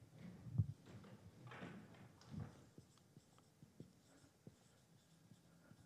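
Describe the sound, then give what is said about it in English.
Writing terms on a board during a lecture: faint scratchy strokes with a few louder taps early on, followed by many soft, scattered ticks of the writing tool. “Okay, stay with me now. I'm writing terms on the board.”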